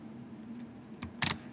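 A few quick keystrokes on a computer keyboard as a link is typed into a chat. The clicks are brief and sharp, bunched near the end over a low background hum.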